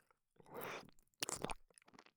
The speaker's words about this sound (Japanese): お耳を舐めさせていただきますね。